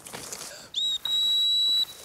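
A high, pure dog whistle recalls a hunting dog flushing small game: two steady blasts, a short one and then a longer held one, fairly faint over a quiet outdoor background.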